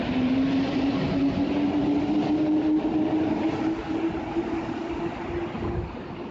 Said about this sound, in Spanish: me voy subiendo al metro de Chile